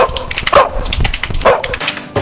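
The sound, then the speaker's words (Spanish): A dog barks and yips in a few short, sharp bursts, fairly loud and alone with no voices. “¿Qué le pasa al perro?”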